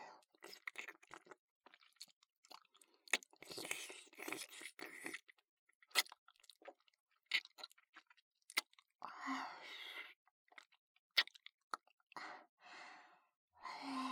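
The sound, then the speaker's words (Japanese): Soft, wet licking and mouth sounds, faint and intermittent: smacks, clicks and short moist bursts broken by breathy sighs and pauses. “かわいい乳首も舐めちゃおうっと。いただきます。”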